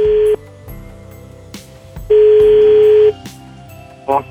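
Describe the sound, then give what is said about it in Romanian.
A telephone number is dialed, then the line rings, as Santa Claus places a call. Short tone bursts come first, then a steady ring tone lasting about a second, then another brief burst, all over a low, steady background. “Hai că de data asta poate nimerez numărul. Ia să vedem. Sună.”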